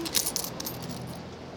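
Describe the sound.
Coins dropped onto a counter as small change, a brief cluster of bright metallic clinks at the start that fades into a quiet ring.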